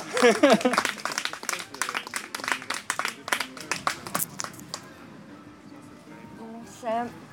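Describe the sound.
Audience applause greeting a person at a gathering in the Vosges, with brisk clapping swelling to a busy patter, then thinning out. Voices speak at the start and again near the end.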